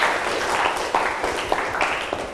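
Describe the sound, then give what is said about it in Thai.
Students clapping their hands to thank an educational video, a loose, uneven patter of applause with several sharper individual claps standing out, fading slightly toward the end. “ขอให้นักเรียนช่วยกันปรบมือเพื่อขอบคุณสื่อวิดีทัศน์ดี”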